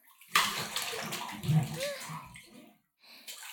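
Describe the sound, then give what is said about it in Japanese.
Hot bathwater splashes and sloshes as someone climbs into a bath, a few soft surges of moving water, a brief lull, then renewed gentle sloshing. “さあ、それじゃあチャプチャプ入りまちよ。”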